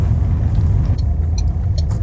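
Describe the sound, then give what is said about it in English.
Steady road rumble of a car driving through Glasgow. A continuous, fairly loud low drone holds evenly throughout, with no talk. “We are now going to head along Finiston end of Glasgow, drive back towards Sainsbury's, do our pick up”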